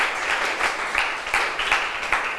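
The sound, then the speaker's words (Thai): Applause from a class for a student: many quick claps rattle together in a steady, even burst that keeps going for the whole stretch. “เก่งมากๆเลยปรบมือให้เพื่อนหน่อยค่ะ”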